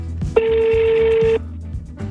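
Telephone ringback tone on an unanswered call to a mother, one steady pitched tone lasting about a second, loud over a low background hum, with no talk during the tone.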